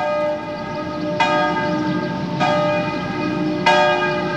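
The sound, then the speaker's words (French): A cathedral church bell strikes noon from its tower. Three clear, heavy strikes land about a second apart, each blooming into a long, humming, metallic resonance that overlaps the next, with no voices. “Les onze coups de midi viennent de sonner au clocher de la Sagrada Constipacion.”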